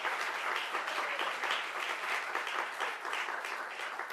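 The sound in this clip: An audience applauds a school jazz ensemble at a portrait donation ceremony: dense, steady clapping that holds at an even level throughout, with no voices over it.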